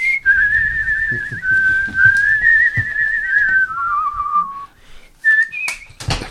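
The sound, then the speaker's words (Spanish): A person whistles a tune in long, sustained, wavering notes that slowly drift lower, then after a short pause returns with a few brief, higher notes. “Tenemos aquí el gran silbador de Aragón.”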